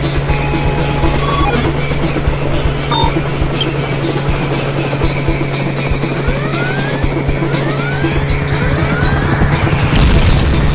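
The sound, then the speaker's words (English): Helicopter noise during a chase, a loud, unbroken droning rotor roar with a steady low hum underneath that lasts the whole time. A few swooping tones appear near the end. “I don't know if I can get us away from that helicopter.”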